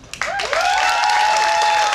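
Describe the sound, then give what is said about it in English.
An improv comedy audience applauds to vote for comedy during a suggestion round. The clapping starts abruptly after a brief quiet moment, then sustains as a full, even wash of applause. “Applause for comedy.”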